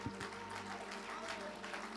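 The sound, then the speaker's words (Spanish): A church audience applauds during a celebration service. The soft, continuous clapping is steady and dense, with voices mixed in throughout. “Fuerte ese aplauso.”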